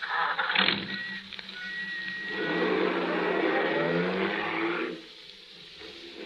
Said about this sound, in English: Hop in. I'll drop you wherever you like. You're very kind. Thank you. Just drive it around for a while, cabbie.